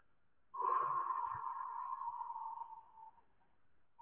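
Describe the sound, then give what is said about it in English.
A voice imitates a free-flowing breath, as voiced in the Semitic languages, with a steady, whistle-like 'oo'. The tone is held for about two and a half seconds and then tapers off softly. “a free-flowing breath sounds something like this in the Semitic languages.”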